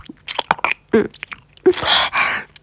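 Wet chewing and slurping sounds of someone eating a large ice cream: irregular smacks, clicks and squishy mouth noises in quick bursts, with no talk.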